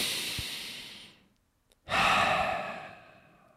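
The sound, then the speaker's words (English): A big deep breath taken by a person: a long, airy rush of breath that fades out, a brief near-silent pause, then a louder, fuller whoosh of breath that slowly tapers away. “Doing a big deep breath. Okay. We're doing a big deep breath here.”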